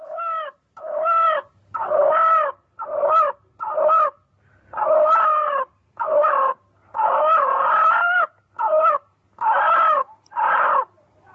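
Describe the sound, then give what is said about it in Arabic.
A chicken or rooster crows again and again, with many harsh, harmonic calls in a steady series and short pauses between them. “وادي فرخه بتقول الله.”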